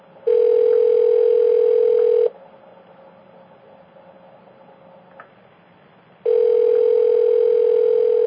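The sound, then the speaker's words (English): Telephone tone on the line after dialing: two loud, steady, buzzing tones of about two seconds each, separated by a quiet gap of roughly four seconds, with no talk. “Well, Susan, did I dial the wrong number?”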